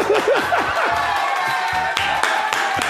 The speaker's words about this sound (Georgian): ბრავო, აპლოდისმენტები.